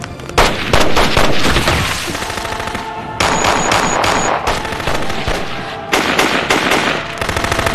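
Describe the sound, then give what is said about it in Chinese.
Concentrated gunfire: loud, dense automatic bursts rattle almost without pause for several seconds, broken only by a few brief dips between volleys. “兄弟们， 在 集中火力，把王九州给我灭了！”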